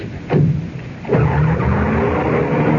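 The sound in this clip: A car pulls away in a cloud of dust with a loud burst of skidding tires and engine roar. A second surge follows, then the noise holds steady and strong.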